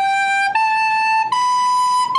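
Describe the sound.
An alto recorder, the kind children play at school, sounds three clear, sustained whistle-like notes, each stepping slightly higher in pitch. The tone is bright, steady and loud, with no voices.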